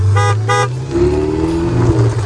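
A Ferrari's horn gives two short, loud honks, then the car's engine keeps running with a steady hum.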